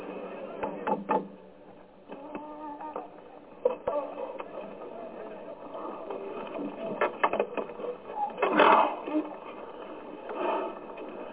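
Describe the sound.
Tightening of an axle with a tool: irregular mechanical clicking, rattling and grinding that runs throughout, with a louder cluster of scraping near the end and faint voices underneath.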